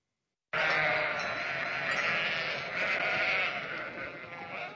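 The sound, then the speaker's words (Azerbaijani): Sheep chosen for the Eid al-Adha sacrifice bleat while they wait for slaughter. After a brief silence the bleating comes as a loud, dense, continuous chorus of overlapping calls that holds steady to the end. “Bu sabah Qurban bayramı günündə qurbanlıq məqsədi ilə seçilmiş və kəsilmək növbəsini gözləyən qoyunlardır.”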